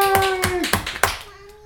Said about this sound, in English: Let's give Target Practice a big hand.